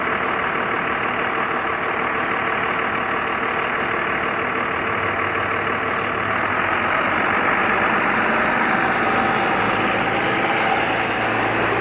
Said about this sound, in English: I'm going to run away from that car.